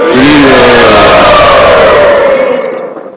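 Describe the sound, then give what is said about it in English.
A crowd at a devotional temple gathering gives a loud, sustained collective shout of Hari Bol to welcome a speaker. The mass of voices swells in unison, its pitch sliding slightly, then fades out at the end. “Let's welcome him with a loud Hari Bol.”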